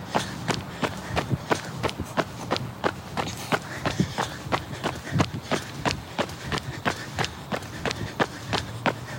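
Running footsteps during a fast stride interval: many firm, evenly spaced footfalls in a quick, steady rhythm that runs through the whole stretch, with no talking.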